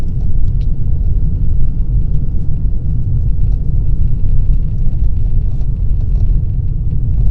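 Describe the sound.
Steady low road rumble from a car driving along a snowy country road lined with snow-covered trees and banks, a constant, fairly loud drone with no voices.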